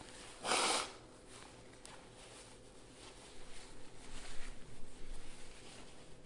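A short, forceful nose-blow into a tissue: one loud, breathy burst near the start, then only low, quiet background noise with faint movement toward the end.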